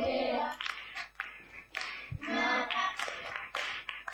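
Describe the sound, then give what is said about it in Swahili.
Clapping from children in a classroom during a maths lesson: many irregular, sharp hand-clap bursts of uneven loudness running throughout, with a brief low thump near the middle. “Ngeni makofi.”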